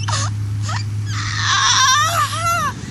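A girl whines in Simlish gibberish while tied up: a few short whimpering cries, then a longer wavering, high-pitched whine that swoops up and down, all over a steady low hum.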